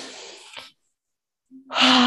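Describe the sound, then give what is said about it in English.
A deep breath drawn in through the nose during a guided heart-opening meditation: a soft airy rush of breath, then a stretch of silence, then a strong, full inhale that swells loudly at the end. “I want you to take a big deep breath into the nose.”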